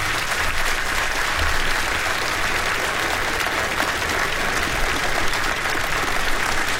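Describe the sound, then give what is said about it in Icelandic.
Audience applause at a live music show: a steady, dense wash of many hands clapping that holds at an even loudness for the whole stretch, with no break or swell. “Þorsteinn Einarsson, gefið honum gott klapp”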